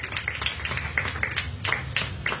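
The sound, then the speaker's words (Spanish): A church audience clapping in praise, about nine crisp claps at an even, brisk pace of roughly four per second, moderately loud over a low steady background. “Dale una ofrenda de palmas fuertes a nuestro Dios.”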